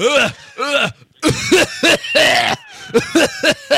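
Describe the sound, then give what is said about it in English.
A voice imitates a hard, hacking coughing fit, like someone with bronchitis. Many loud, harsh voiced bursts come in quick clusters, with a short pause near the start and then a faster run of coughs. “like he would cough really hard at the point of orgasm.”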